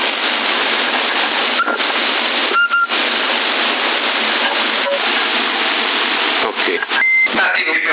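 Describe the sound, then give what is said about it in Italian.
Short electronic beeps cut through the steady static hiss of a CB radio transmission on 27.075 MHz. A few brief tones come early, then a longer held tone, all fairly faint against the continuous noise. “Quello c'ha anche il bip, infatti l'ho tolto”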